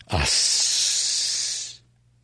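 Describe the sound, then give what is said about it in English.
A narrator voices a long sibilant hiss, one steady, breathy hiss held for about a second and a half, loud and alone, then fading into quiet. “The last sibilant hiss floated down the table to Saba's startled audience.”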